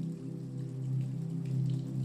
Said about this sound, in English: as you do, the first fat droplets of rain begin to fall on the palm trees overhead.